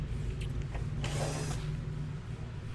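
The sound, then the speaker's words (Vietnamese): A 49W800G TV set is taken apart, giving a brief mechanical scrape and creak in the middle over a constant low hum. “Ok, thì mình giờ mình tiến hành mình tháo cái TV này ra để mình xử lý lại nha anh em. Có cái thông số TV là 49W 800G nè.”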